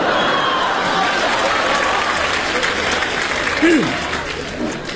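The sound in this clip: Audience applause greets a performer coming on stage at a comedy show in Beijing. Dense, continuous clapping from a large crowd holds steady throughout, and a voice rises briefly over it near the end.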